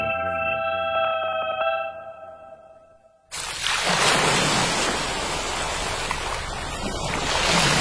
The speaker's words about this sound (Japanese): ザバン、ザバン、海が光っている。